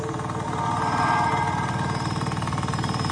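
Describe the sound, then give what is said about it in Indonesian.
An old Vespa scooter engine, one prone to stalling, runs with a steady buzzing drone and rapid, regular pulsing. It holds an even, moderate level throughout with no talking. “Aku lanjut melanjutkan motor Vespaku ini menuju sebuah jembatan.”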